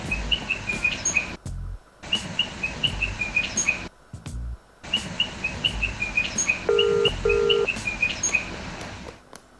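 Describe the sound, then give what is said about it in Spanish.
A small grey Patagonian bird that eats worms chirps in quick high-pitched runs, repeated again and again with short breaks, over a low rumbling background. “Es un ave chiquitita y muy simpática, con ojitos grandes y colita larga.”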